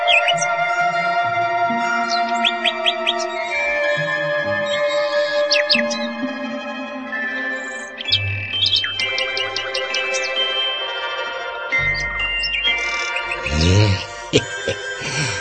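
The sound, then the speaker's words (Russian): A nightingale sings in a forest, pouring out rapid clicking trills and bright whistled phrases in varied, repeating bursts that run continuously throughout. “Как звать-то тебя, серая птичка? Соловей.”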